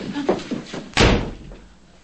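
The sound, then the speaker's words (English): A bedroom door slams shut with one heavy, sharp thud, followed by a short rumbling decay. Softer bumps come before it. “slams the door shut and glares at her”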